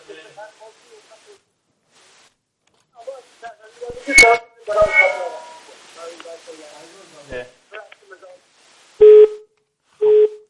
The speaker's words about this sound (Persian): تلفنشون قطع شد.